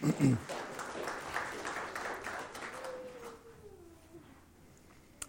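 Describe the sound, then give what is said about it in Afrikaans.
Applause from a church audience, a dense wash of clapping that starts strongly and gradually thins and fades away over a few seconds. “Julle kan maar gaan sit, anders gaan julle lank hier sit. Dankie julle. Kom ons gee vir hulle hande.”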